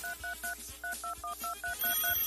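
Touch-tone keypad beeps on a radio call-in telephone line: a quick, steady series of many short two-note electronic tones, moderately loud, with no voices.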